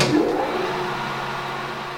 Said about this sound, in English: Davis is securing an aluminum rod to a part of a lathe machine in the high school shop. The teenager is interested in learning more about the huge machine, which turns metal so it can be carved and shaped. Davis starts up the motor,